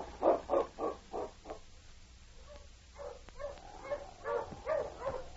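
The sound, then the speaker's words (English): A sled dog team of huskies barking: a quick run of about five barks, a brief lull, then more barking of uneven loudness. “Ho, you huskies.”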